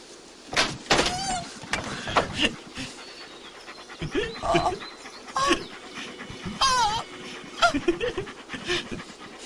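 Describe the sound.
Puppies pant in quick, breathy bursts, a busy string of short huffs and gasps with no steady rhythm, fairly loud throughout.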